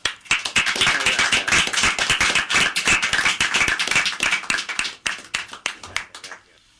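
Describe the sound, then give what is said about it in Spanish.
Studio hosts clapping together at the end of an interview, many sharp, distinct hand claps in a quick, uneven rhythm that thins out and turns sparser near the end. “un saludo y ten un aplauso nuestro”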